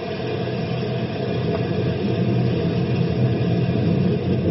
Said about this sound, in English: Throw the lifting device in gear.